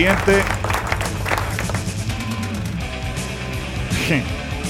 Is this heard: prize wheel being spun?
no

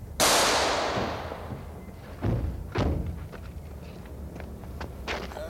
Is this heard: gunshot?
yes

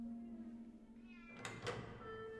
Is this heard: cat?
yes

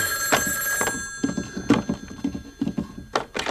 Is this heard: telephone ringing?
yes

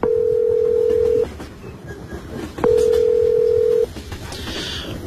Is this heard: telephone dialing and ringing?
yes

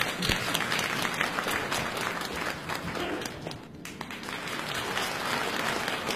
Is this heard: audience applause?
yes

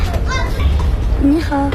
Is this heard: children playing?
yes

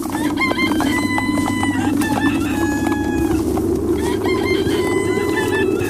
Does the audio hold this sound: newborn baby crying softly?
no

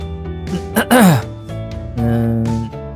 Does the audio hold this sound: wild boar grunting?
no

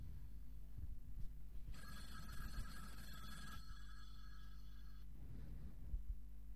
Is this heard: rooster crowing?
no

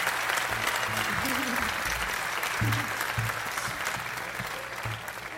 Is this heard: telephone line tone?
no

